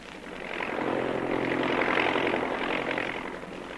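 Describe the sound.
Propeller aircraft engines drone in a staged sound effect of search planes flying over, a steady rumbling hum that swells to a peak and then eases off slightly, with no voices.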